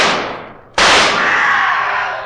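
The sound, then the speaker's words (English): A pistol is fired in a moonlit cemetery. A single sharp, loud crack is followed by a long, ringing decay, with no voices. “Quick, fire your pistol.”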